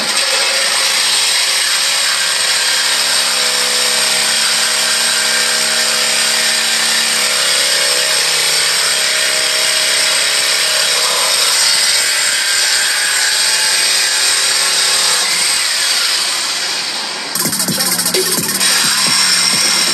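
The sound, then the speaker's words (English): A power saw cuts through a car's mid muffler, giving a loud, continuous, harsh rasping whine that runs steadily for most of the time, then briefly dips before turning rougher and more broken near the end. “This is the mid muffler. All it does is it's what's denting all the sound. So while he's about to cut this right now, and I'm gonna leave the stock resonators in the back.”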